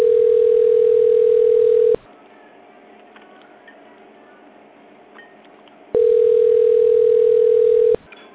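A telephone on-hold tone sounds while all lines at a sales department are busy. A steady single-pitch beep runs for about two seconds, then quiet hold noise follows, then the same two-second beep repeats.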